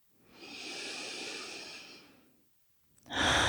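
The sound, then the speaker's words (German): Deep breaths drawn in and out through an open mouth: a long, airy, hushed breath of about two seconds, then a short silence and a louder, brighter breath starting near the end. No voices. “Dann nimm hier ein paar tiefe Atemzüge ein und aus. Geh mal durch den geöffneten Mund.”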